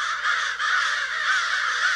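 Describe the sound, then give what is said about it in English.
Crows cawing as they mob a bald eagle: a steady, unbroken chorus of harsh, overlapping caws from several birds, loud throughout with no clear pauses. “crows mobbing a bald eagle”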